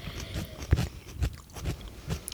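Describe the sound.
Biting into and chewing a raw shallot produces a few crisp, moist crunches in an uneven rhythm, fairly faint, with soft chewing between the bites.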